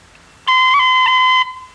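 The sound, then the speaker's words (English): A dotted crotchet roll on B played on a whistle in a reel: one bright, sustained note of about a second, broken by quick ornamental flicks, played alone with no talk. “In the first bar, the dotted crotchet roll is played like this,”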